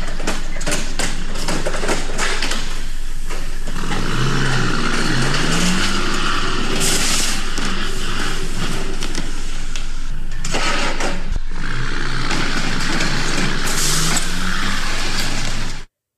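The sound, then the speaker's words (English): A semi truck driving over a couple of concrete poles and losing all four rear tires: a loud, rough engine revs up in rising surges amid harsh scraping, banging and clatter, then cuts off abruptly. “a trucker with questionable driving skills tried to drive his semi truck over a couple of concrete poles, ended up losing all 4 of his rear tires. Check it out. It sounds very sad.”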